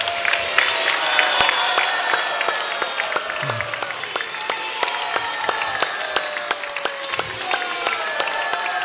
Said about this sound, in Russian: встать и поаплодировать его стоя. Овации.